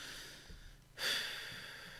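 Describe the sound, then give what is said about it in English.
A single deep breath drawn in sharply: a brief, breathy rush of air that swells quickly and then trails away, quiet and alone. “So let me take a deep breath.”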